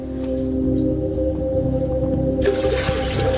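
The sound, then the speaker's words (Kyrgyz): Water poured from a container for washing because the tap is dry. A steady low tonal hum comes first, then a splashing, gushing pour breaks in during the final second. “Эми биякта краныбыз турса да минтип суу куюп минтип жууп атабыз.”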